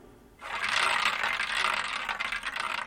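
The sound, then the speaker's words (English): A record player needle stuck in the final groove at the end of a record: a faint, steady scratchy hiss that starts abruptly and carries soft, rhythmic bumping ticks as the disc keeps turning. “the needle comes to the end of the record and gets stuck in that final groove”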